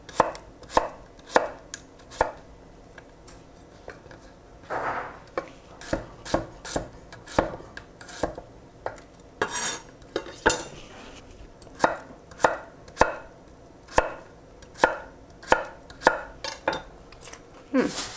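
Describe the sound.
Knife chopping radishes into thick rings, many crisp, fairly regular chops in a steady rhythm with no talk.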